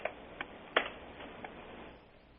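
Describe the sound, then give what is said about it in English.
Keystrokes on a computer keyboard as a real estate search is typed in: a few sparse, sharp clicks, one louder than the rest, over a faint steady hiss. “I just typed in real estate.”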